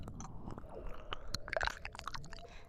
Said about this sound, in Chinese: 湿湿的，软软的，温暖的触感，是我们的舌头。